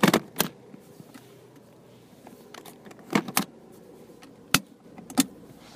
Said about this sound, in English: So I'm going to put on my safety belt, turn on my car, put it in drive.